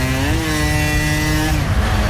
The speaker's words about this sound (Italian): Ancora in moto arriva, non ha freddo. È bello andare in giro con la Vespa sotto il...